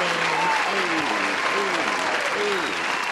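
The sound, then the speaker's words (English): Steady, dense applause with hand claps celebrating a man's release from prison, unbroken for the full few seconds at an even loudness, with some vocal whoops rising above the clapping. “We're going to give him a hand clap.”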